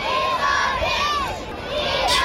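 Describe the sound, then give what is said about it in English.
Primary school children cheer and shout to greet the king, a dense, continuous high-pitched roar of many young voices, with individual shouts rising and falling above the crowd. “The great thing was the school kids who were out to greet the king actually made more noise. And here they are.”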